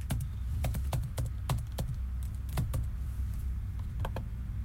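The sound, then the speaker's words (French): Typing on a computer keyboard: many crisp, irregular key clicks in uneven bursts, standing out alone over a low steady hum. “Ça, c'est le son de ma solitude moderne, puisque maintenant, je tape ce que j'écris.”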